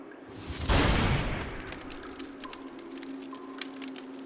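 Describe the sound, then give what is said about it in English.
A fire catches with a soft whooshing rush, then settles into sparse, sharp crackles and pops over a low steady background. “Take a seat. Sit back. But don't relax too much. Let's get this fire going.”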